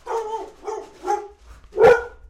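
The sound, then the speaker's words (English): Dogs bark at a mail carrier pushing mail through a front-door slot: four loud barks in an uneven rhythm, the last one the sharpest and strongest. “he's going to be putting the mail in my mail slot in the front door in about 5, 4, 3, 2, 1. And my dogs are going to go crazy.”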